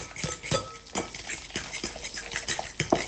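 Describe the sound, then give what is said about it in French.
Stirring a feta mixture seasoned with pepper, a steady run of soft scraping knocks repeating roughly twice a second at low volume. “Et je mélange.”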